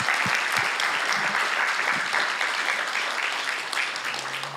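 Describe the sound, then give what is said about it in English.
Audience applause for a youth team at a gathering: a full, continuous round of clapping, loud and sustained, easing off slightly near the end. “I want us to give our team, our youth team, a big round of applause.”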